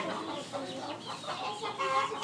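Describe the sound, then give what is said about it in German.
Young chickens, hatched from eggs and now nearly grown, cluck in quiet, overlapping short calls against a faint hissy background, the clucking running steadily throughout. “die ganzen kleinen Hühner, die hier jetzt rumlaufen, mittlerweile auch gar nicht mehr so klein sind”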